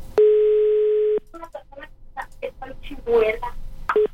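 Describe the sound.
Telephone tones sound on a line during a call that goes unanswered: one long, steady electronic beep, then a string of short dial-like tones, a brief burst of voice, and a final short beep.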